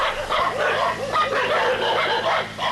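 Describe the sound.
Several dogs bark furiously during a fierce fight with a wolf, a dense, overlapping stream of sharp barks and yelps that never pauses.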